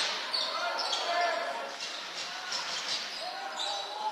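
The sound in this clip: A basketball is dribbled on the court during a high school game between Houghton and Westwood, the bounces blurred into a steady wash of gym noise of even loudness.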